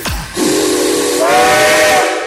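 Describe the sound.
A steam train whistle blows one long, loud, hissing blast that holds steady, then steps up to a higher pitch midway and sustains to the end.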